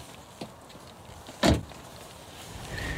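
A car door thumps shut once as people climb into another car during a roadside bird count, after a faint click, with a low steady rumble underneath and rising slightly toward the end.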